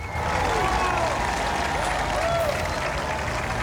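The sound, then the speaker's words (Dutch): A big round of applause rolls on as a steady, loud wash of clapping, with a few high whooping cheers rising and falling over it. “Ik wilde een heel groot applaus geven.”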